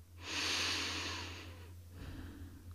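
Calm, deep breathing from a person standing with lightly tensed muscles: one long, airy breath swells and slowly fades, then a second breath begins, over a low steady hum.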